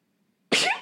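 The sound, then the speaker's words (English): A single sudden sneeze with a squeaky, high-pitched edge, bursting out loud and breathy after near silence and then trailing off. “Bless you. So sorry. That was a squeaky one. It was a squeaky one.”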